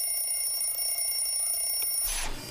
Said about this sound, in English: An alarm clock rings by Cody's bed.